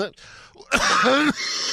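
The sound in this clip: Throat clearing and a rasping cough bring up phlegm after a hard closed-fist punch just below the rib cage. The sounds come in strained, voiced bursts, with a longer, louder effort in the middle.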